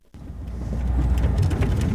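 Low rumbling of a car driving across family farmland near Redford, Texas, on a quiet spring morning. The rumble starts abruptly and swells slightly, continuing as a steady broad roar.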